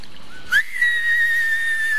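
A whistler firework gives a shrill whistle. A brief rising chirp is followed by a long, steady high tone that sinks slightly and holds to the end.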